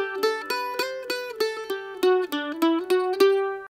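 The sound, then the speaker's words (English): Mandolin playing: a quick series of bright plucked notes, each striking sharply and decaying fast, moving through a short melodic line at an even, lively rhythm. “This is the sound of the mandolin, which comes from Italy.”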